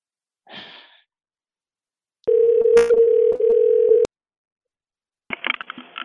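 A telephone dial tone sounds as one steady, loud hum lasting under two seconds, with a couple of clicks inside it. A soft breathy sigh comes before it and a short burst of breathy noise follows.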